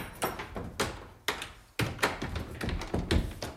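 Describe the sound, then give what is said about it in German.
A heavy, stiff door being forced open, giving a series of knocking thuds and rattling bumps in an uneven rhythm, fairly faint and without voices. “die Tür geht ja immer so schwer auf”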